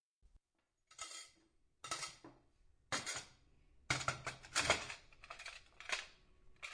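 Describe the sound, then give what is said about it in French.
Plates, forks and spoons clatter as a table is set, with many sharp clinks and scrapes coming in short irregular bursts, fairly faint and without voices. “tu peux mettre les assiettes, les fourchettes et les cuillères.”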